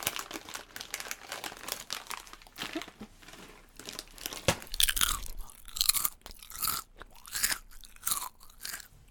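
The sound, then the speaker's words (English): Crunchy Thai chips are chewed in a quiet ASMR-style session, giving many crisp, irregular crunches mixed with crinkling and rustling, soft and close-sounding throughout. “sorry for all the chewing noises and whatnot, but hey, you know what you're getting”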